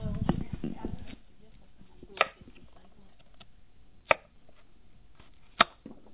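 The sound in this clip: A knife cuts carrots lengthwise on a board while couscous is being made. After a short stretch of talk at the start, three sharp, isolated knocks follow, spaced about two seconds apart.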